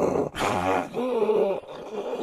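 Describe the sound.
A human voice imitates an English bulldog's noisy breathing, making a few drawn-out, raspy, snorting groans in a row.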